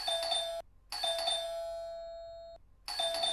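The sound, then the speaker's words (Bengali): Three bursts of a doorbell, a bright, quiet electronic chime with short gaps between them. The middle ring lingers longest, with its tone slowly fading before the next press. “আবার bell দিচ্ছে আসছি রে বাবা আসছি”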